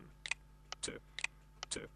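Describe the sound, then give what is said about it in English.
A VoiceOver screen reader sound after Bluetooth pairing on a phone: a faint series of short, crisp ticks in quick, uneven clusters. “And there we go. It's worked. And that noise you heard there was basically VoiceOver indicating”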